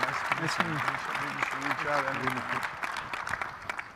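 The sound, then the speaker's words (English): Audience applause for the panelists at the close of a panel discussion, a soft patter of clapping that continues under a speaking voice. “if you could join me in giving our audience, our panelists a great hand.”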